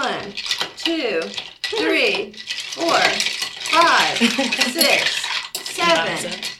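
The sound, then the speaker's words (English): A spoon stirs a drink made with squeezed orange, giving a continuous light metallic clinking and rattling against the glass while someone talks over it. “And then I'm supposed to stir for 10 seconds.”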